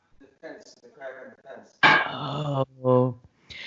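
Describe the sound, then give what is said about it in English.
A dog in a backyard gives two drawn-out, harsh barks or yelps just after some brief, quiet speech. “Oh my God, my dog is running in circles in the backyard. Where did he just go?”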